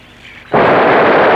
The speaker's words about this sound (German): Feuert eine Salve ab und jagt sie heraus. Soll sofort geschehen. Er richtet selbst das Geschütz. Gleich werden sie feuern.